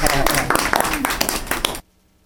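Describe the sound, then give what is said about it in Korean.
A small audience at a studio interview breaks into quick clapping, a busy patter of many hand claps under a speaking voice that cuts off abruptly near the end, leaving quiet. “예, 박수래요.”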